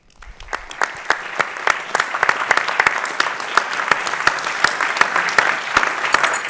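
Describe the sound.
Applause from an audience welcoming a speaker at an event at the Constitution Center, a dense steady patter of many hands that swells quickly from the start and holds loud throughout.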